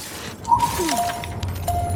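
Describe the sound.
Glass bottle smashing in a video game: a bright crash near the start, then short ringing, tinkling tones over a steady low ambient hum.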